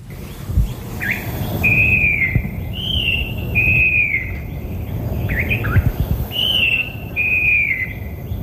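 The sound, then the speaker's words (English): Loud song of a falcated wren babbler from an old recording made in Asia: a series of clear, high whistled notes, some sliding slightly, repeated in spaced phrases over a low background rumble. “A loud song throughout the cuts coming from the falcated wren babbler.”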